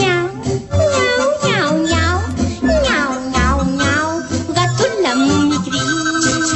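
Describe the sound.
A cat meows over and over in loud, drawn-out calls that rise and fall in pitch, with low steady tones sounding underneath.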